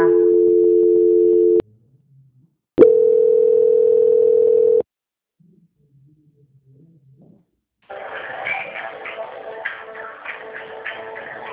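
Telephone dial tone heard after star 2 is pressed to transfer a call: two loud, steady low-pitched tones separated by a short silent gap, followed after a pause by a fainter, busier murmur.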